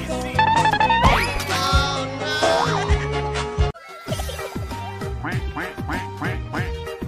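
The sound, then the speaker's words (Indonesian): Duck quacking, loud nasal quacks repeated many times amid busy bright tonal sounds, with a brief silent break partway through before the quacking resumes. “Bebek. Duck.”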